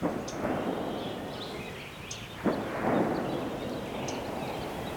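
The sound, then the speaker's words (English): A sharp gunshot crack rings out midway through a steady low rumble in forested hill country dotted with pot farms near a mountain road, with a few faint bird chirps scattered through. “And that's the sound of someone shooting guns.”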